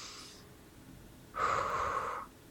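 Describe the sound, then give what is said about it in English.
One deep breath drawn in through the nose or mouth, a single airy, slightly rough inhale of under a second that rises and ends abruptly. “Just doing that one breath. Breathe in.”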